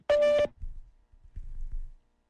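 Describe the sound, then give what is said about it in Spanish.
A Google Voice call-screening tone plays as a single loud, steady electronic beep lasting under half a second, followed by quieter low sounds. “state your name after the tone and Google Voice will try to connect you.”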